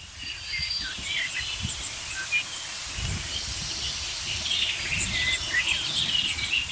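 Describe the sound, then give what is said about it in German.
Blackbirds scold with alarm calls: many short, high chirps scattered irregularly over a steady background hiss. “Stattdessen höre ich schimpfende Amseln.”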